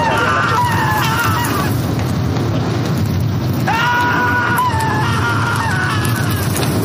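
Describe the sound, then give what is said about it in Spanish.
A comic radio sound effect gives the screams of someone writhing in hell: two bursts of wavering, stuttering wails over constant rough background noise. “Hoy, directo, oigan los gritos, cómo se está revolcando.”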